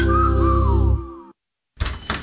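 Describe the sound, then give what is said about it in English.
Two knocks on a door sound after a short silence. They are loud, blunt thuds that follow a fading musical passage. “Knock, knock, Capital One Bank guy”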